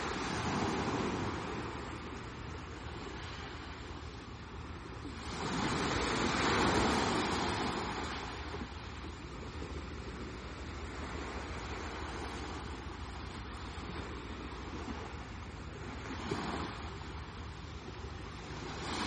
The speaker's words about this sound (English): There's very little tidal pull in the Mediterranean. The tide comes up a little, the tide goes down. Nothing very dramatic.